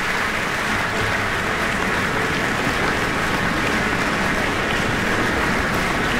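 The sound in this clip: Sustained applause from a concert audience after a cello concerto. Many hands clap in a dense, even roar that holds at the same loud level for the whole stretch, with no voices rising above it.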